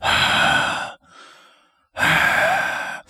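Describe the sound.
Heavy, rasping breathing of a masked killer in a horror film: two long, loud, hoarse breaths separated by a much quieter, fading breath between them.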